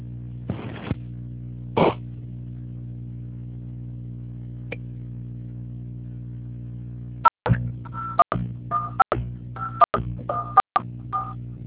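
Telephone keypad dialing tones while adding a caller to a group call: a quick run of short, clear beeps over a steady low hum, after a couple of brief rustling bursts earlier on.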